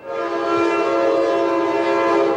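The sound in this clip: A train whistle blows as a train passes along the Oakland waterfront. It is one long, loud, steady chord held for the whole clip.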